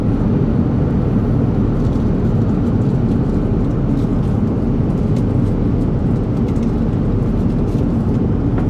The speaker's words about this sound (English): I also recorded a sample of the background noise in business class on an A350 to compare. This one happened to be Lufthansa, which, given the density of their cabins, I'd expect to be a little noisier in terms of background noise than a less dense cabin.